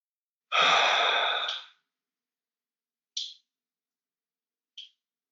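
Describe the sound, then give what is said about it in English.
A slow, deep breath exhaled through the mouth: one long, loud breathy rush that holds steady and then fades, followed by two brief, faint clicks. “Just a regular inhale and a large exhale. Maybe exhaling through the mouth.”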